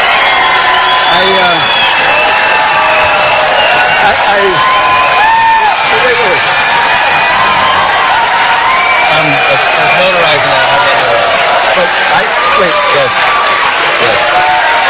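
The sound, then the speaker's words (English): A crowd cheering and whooping in wild reaction to a speaker: a continuous, loud wall of shouts, cheers and high whoops with no break for the whole stretch. “And the crowd goes wild.”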